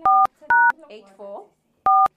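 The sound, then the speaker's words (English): Telephone keypad DTMF tones as a number is dialed: three clean, steady beeps separated by pauses, with a person talking briefly between the second and third tone. “Oh, let's phone her quickly and get this. Okay. Okay, what's her number? 081 84”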